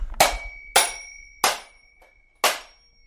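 A small hammer smashes a mechanical alarm clock in four sharp metallic blows, each leaving a brief bell-like ring. A faint tap falls between the last two strikes, and no voices are heard.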